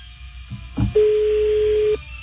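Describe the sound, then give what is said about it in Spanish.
A telephone ringback tone sounds as an outgoing call rings unanswered: a dull click, then one steady, mid-pitched tone held for about a second before cutting off, with no voices. “Vamos a marcarle otra vez a la señora. A ver si nos contesta. Una broma, mi suegra hace préstamos”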